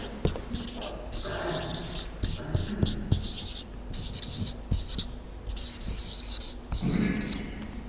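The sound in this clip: Handwriting scratches out a short phrase in irregular, rasping strokes and brief taps, fairly quiet and continuing for several seconds.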